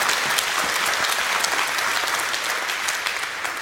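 A church audience applauds during a Sunday service to welcome online viewers, a dense, steady round of clapping that tapers only slightly toward the end.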